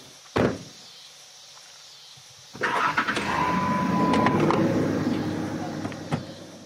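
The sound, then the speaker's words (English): A car drives away. A single thump is followed by a pause, then the engine noise comes in and swells into a steady, rumbling roar that holds to the end, with a few small knocks. “And then they drove away.”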